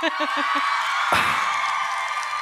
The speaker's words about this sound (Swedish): Alltså det var inte ett jättestarkt jubel.